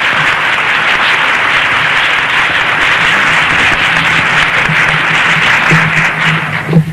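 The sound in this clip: An audience at a church gathering bursts into warm applause to welcome a guest speaker. The dense, even clapping holds steady and loud for about seven seconds before it thins out at the very end.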